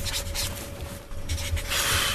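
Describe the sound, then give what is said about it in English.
Pen scribbling on paper as someone signs their name during a quiz, with a steady scratchy rustle and a few brighter strokes toward the end. “I know you're scribbling, like, are you just drawing little doodles on the page? Yeah, basically just signing my signature here.”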